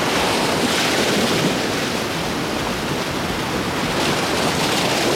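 Ocean waves wash onto a holiday beach in a loud, steady roar of surf, with wind rushing over the microphone throughout and no voices.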